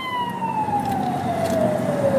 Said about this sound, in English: Well, at least it's just an ambulance. It's not a whole fucking squad with the trucks and stuff.